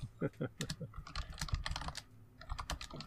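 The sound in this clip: Typing on a computer keyboard while a summary is written: quick, irregular bursts of soft key clicks that run on without a break, faint throughout.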